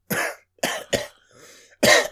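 A person with something stuck in their throat coughs and clears their throat in four short, harsh bursts, with a quieter raspy throat sound between the third and fourth.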